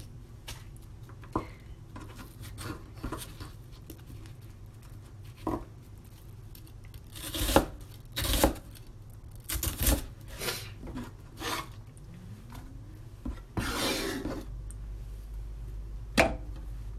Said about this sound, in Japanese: この玉ねぎはもう明日の分っていう感じですなんか刻みたくなっちゃったので刻んでます